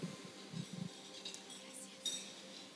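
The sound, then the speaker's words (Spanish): A glass communion cup gives a faint, bright clink as it is raised during a Lord's Supper church service, preceded by a few soft, low knocks. “Levantando la copa ahora.”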